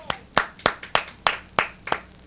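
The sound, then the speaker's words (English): Hands clap in praise during a church worship service, with seven distinct, sharp claps in a steady, slightly uneven rhythm. Each one is crisp and bright, with no speech over them. “Give my hand a clap of praise.”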